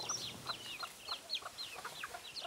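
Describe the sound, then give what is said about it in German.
Bantam hens clucking among mixed farmyard poultry: many short, high, chirpy clucks in an irregular stream, fairly faint, with no talk. “Unter ihrem bunt gemixten Federvieh gibt es auch ein paar Buschhühner.”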